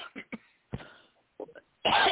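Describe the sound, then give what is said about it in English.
Short coughs from a woman reading aloud, several brief, fairly faint bursts separated by pauses, ending in a louder, noisy outburst. “I'm so sorry for coughing.”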